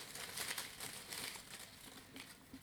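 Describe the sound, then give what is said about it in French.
Someone crumples a small piece of paper, giving a faint, continuous crinkling rustle with a few sharper crackles. “J'ai pris un tout petit papier.”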